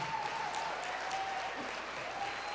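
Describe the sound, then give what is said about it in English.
A church audience applauding in welcome of a pastor: soft, even, continuous clapping that lasts the whole moment, with no voices standing out. “Could you guys give a huge welcome and a huge hand to Pastor Andrew as he gets up?”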